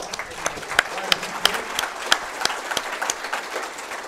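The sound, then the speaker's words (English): Audience applause at a live talk. Moderately dense clapping runs throughout, with a few sharper individual claps standing out from the steady patter. “How about a big round of applause for”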